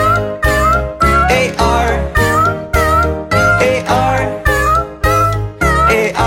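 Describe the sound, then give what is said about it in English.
Cat meows sung in a children's phonics song about a farmer's cat: many loud, melodic meows repeat in a steady rhythm over low musical accompaniment. “Oh, there was a farmer who had a cat, and Oscar was his name.”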